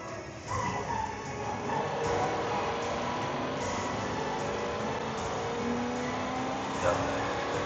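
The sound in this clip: Camaro engine with an SLP intake running on a dyno, a steady droning roar with a tonal whine that holds fairly level and loud for the whole stretch.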